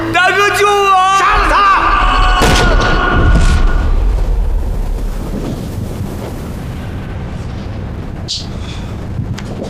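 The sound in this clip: Gunshot-like booms in a tense confrontation. Sharp bursts cut through shouting voices and rumbling, noisy background.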